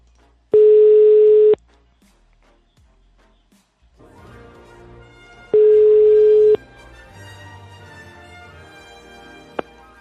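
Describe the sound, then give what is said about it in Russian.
A telephone line tone sounds after a number is dialled: two steady, mid-pitched one-second beeps separated by a pause of about four seconds, with faint line noise in between. “Так, еще надо набрать одному пиздюку вот номер его. Так, сейчас, секунду, 359-62. Так, набираю одному пиздюку.”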